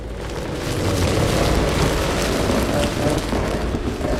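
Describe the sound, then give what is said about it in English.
Wood and vines twisting, heard as a loud, sustained rumbling, grinding roar that swells after the first second and holds steady to the end. “you heard the familiar sound of wood and vines twisting.”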